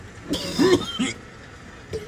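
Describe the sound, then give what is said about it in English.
Coughing from a person who has just inhaled a lot of smoke: a few harsh, raspy bursts in an uneven rhythm, moderately loud, with no talk. “Jesus. Breathe. He's gotta cough this one out. It's a lot. That was a lot.”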